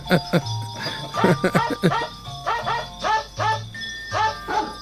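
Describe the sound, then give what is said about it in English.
Dog barks played through a sampler, repeated as many quick yelping barks in a steady rhythmic pattern over sustained low tonal notes. “let's put a dog through a sampler.”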